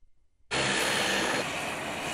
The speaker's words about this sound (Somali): diyaaradan gadaashay ka muuqata ayaa lagu keenay arday iyo sidoo kale shacab Soomaaliyeed